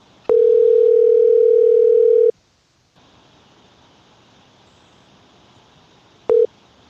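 Telephone ringback tone of an unanswered call: one loud, steady, even tone held for about two seconds, then a quiet pause with faint hiss, then the start of a second tone cut short at the end.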